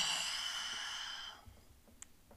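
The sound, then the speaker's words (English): A long, hissing wheeze of breath, an airy rasp that holds for over a second and then fades into quiet. “Jeez, the fucking wheeze.”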